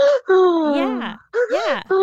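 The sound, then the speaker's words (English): A voice imitates the halting breath of a crying child: a few stuttering, whimpering vocal bursts with a wavering, catching pitch, separated by brief pauses. “it's called the child's breath for a reason, because if you've ever heard a child crying, or maybe you remember, sometimes they mimic this breath where a child could go,”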